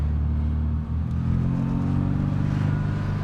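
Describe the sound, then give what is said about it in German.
Engine of a Mini car while driving, a loud, steady low rumble and drone with a brief dip in level partway through before the engine note carries on. “Die Fahreigenschaften eines Minis? Wendig, dynamisch und lebhaft. Man könnte auch sagen, laut, hart und unbequem.”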